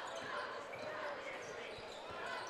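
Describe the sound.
A basketball is dribbled on court in the closing seconds of a high school game between Lexington and Mansfield Senior, soft bounces buried in a steady crowd din with voices throughout.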